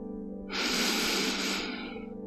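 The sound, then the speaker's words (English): A single deep breath taken at the surface after diving: one long, airy inhale that swells in and fades over about a second and a half, quiet overall with a faint low hum beneath. “But when we are on the surface, we can breathe huge deep breaths. Let's do it again.”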